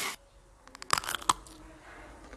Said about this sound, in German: Wow, also auf den Sound bin ich echt gespannt. Lecker, mit dem Senf. Ja, lecker so eine Bocki.